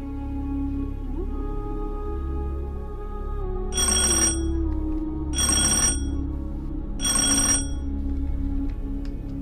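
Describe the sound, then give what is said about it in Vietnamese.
A mobile phone rings for an incoming text message: three separate bursts of bright, shrill ringing, evenly spaced, over a steady low background drone. “Tiếng điện thoại của Kỷ Lương vang lên. Cô lấy máy ra nhìn, là tin nhắn của một số điện thoại lạ.”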